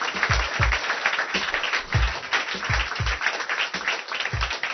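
A church audience applauds during a worship service, making a steady wash of clapping with low, rhythmic thumps running through it.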